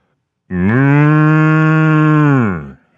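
A cow mooing as a sound effect for the golden calf in a sermon, one long, loud, low moo held at a steady pitch before fading out.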